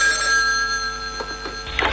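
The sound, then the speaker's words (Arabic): A telephone rings with a steady electronic tone of bright, sustained pitches, followed by a short burst of noise at the very end. “ما حب رد على التليفون، ما بحب يا اختي. يا الله رد لبين ما غسل ايدي.”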